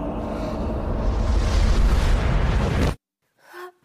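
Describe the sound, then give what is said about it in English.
Deep rumbling roar of a crack in the world closing over, a fantasy drama effect: loud, dense, steady rumble for about three seconds that stops abruptly, then a short faint sound. “And the crack in the world closes over once more.”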